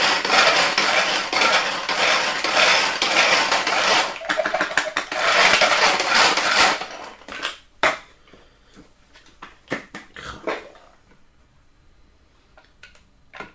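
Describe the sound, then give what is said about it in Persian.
Fresh garlic cloves are grated in a bowl, with a steady, loud rasping scrape lasting several seconds, then scattered sharp clicks and taps that grow fainter. “و این سیرها رو در حقیقت حالت رندشون میکنم یا خوردشون میکنم.”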